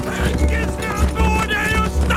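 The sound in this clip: Horse hooves galloping in a fast, steady pounding rhythm beneath excited voices urging the horse on.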